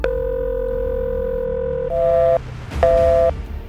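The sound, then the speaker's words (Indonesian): Telephone ringback tone on a call that goes unanswered: one long steady electronic tone, then two shorter tone bursts separated by a gap, over a low hum, with no voices. “Pak RT yang bingung langsung mencoba untuk menghubungi Panca. Walah, kemana lagi itu orang?”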